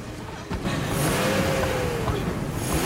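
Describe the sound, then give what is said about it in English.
A car engine revs hard as a panicking driver struggles to get the car going: a loud, continuous roar with a whining tone that swells upward and then eases back down. “Panicking, she struggles to start the car”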